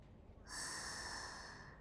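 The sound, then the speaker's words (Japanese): A deep breath let out in one long exhale, a breathy hiss that starts after a brief pause and fades slowly, with no talk. “はい、深呼吸。ふぅ。”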